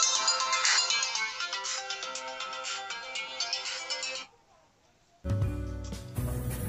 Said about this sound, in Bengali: phone করলাম